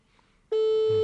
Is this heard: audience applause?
no